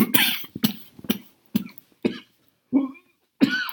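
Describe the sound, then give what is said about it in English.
A series of harsh, bursty coughs from a person with a recurring cough, several in quick succession with brief pauses between them, heard alone without talk. “One reason I've not been podcasting so much is because I've had a recurrence of this cough”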